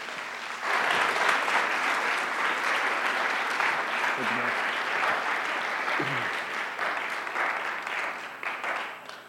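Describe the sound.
An audience at Whitworth applauds to welcome a speaker to the stage, with sustained, even clapping that stays loud for nearly the whole clip and eases slightly toward the end.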